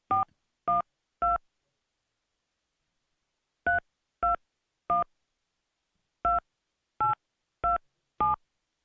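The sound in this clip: Telephone keypad dialing tones while calling a baseball team's ticket line: ten short, clear beeps in three bursts of three, three and four, with silence between them.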